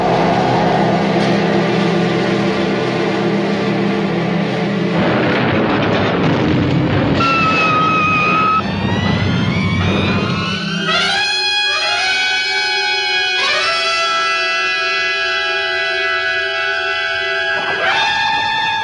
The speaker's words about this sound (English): We're off! Just as I predicted, shot into space with the speed of a bullet.